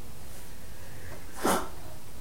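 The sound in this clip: A single short sneeze during a devotional recitation, one brief sharp burst standing out from a steady background hum.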